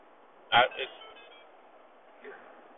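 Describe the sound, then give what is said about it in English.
Mobile phone notification sound: a short, bright electronic chime of two quick tones, followed later by a much fainter tone, over a low steady background. “No, that was my phone.”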